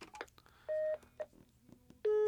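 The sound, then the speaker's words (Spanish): Telephone keypad tones as a number is redialed: a few short, steady beeps separated by pauses, faint overall, with a quiet voice speaking between them. “Sí, sí, voy a volverle a marcar.”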